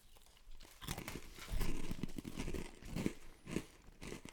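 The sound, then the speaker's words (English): Food crumbled by hand on a table makes a faint, uneven run of many small crunches and crackles, coming in irregular bursts. “Just crumbling it on the table.”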